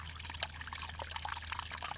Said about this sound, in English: She recorded a gurgling pond underwater using a hydrophone